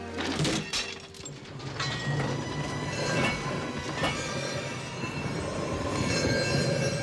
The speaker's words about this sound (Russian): Поворачивает рычаг. Машина задом скатывается на рельсы.